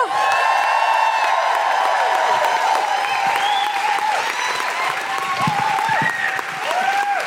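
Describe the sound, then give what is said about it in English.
A live comedy-show audience applauds and cheers loudly to welcome a performer onto the stage. Repeated high whoops glide up and down above a steady, dense wash of clapping that lasts throughout. “Please welcome to the stage with a huge guilty feminist woohooing noises, the wonderful Susan McCormick!”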